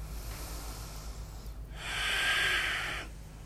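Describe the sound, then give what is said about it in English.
Ujjayi breathing in and out through the nose during a yoga practice: a softer breath gives way to a louder, sustained throaty hiss that swells and then fades, with no talk. “challenge you to keep that ujjayi throughout your practice. If things get hard, don't breathe out through your mouth. Keep the fire in. Ujjayi in through your nose and out through your nose.”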